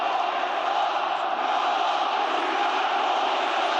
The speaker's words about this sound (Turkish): Beşiktaş'ta Leandro Trossard'ın imza törenine Muhammed Salah tezahüratları damga vurdu.